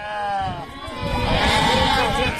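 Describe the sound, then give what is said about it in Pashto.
Bleating from a herd of sheep kept by nomadic herders: loud, wavering, overlapping calls that run almost continuously. “پام وکړي د راپور ته چې د یوې رمې په غک پیلېږي.”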